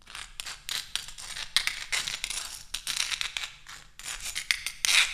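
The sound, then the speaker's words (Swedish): Writing by hand in Persian script: many quick, scratchy strokes and scrapes follow one another in an uneven rhythm, with short gaps between bursts and no talk. “Nu ska jag skriva haschkaka. Jag ska skriva för den, så ska du uttala sen.”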